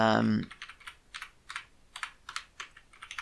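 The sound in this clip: Keys clatter on a computer keyboard while typing code, many quick, crisp clicks in an uneven rhythm after a brief voice at the start.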